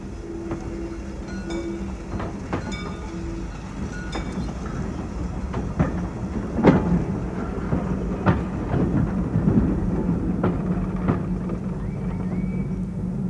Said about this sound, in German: Man sieht den Zug nicht. Noch deckt ihn die Kurve.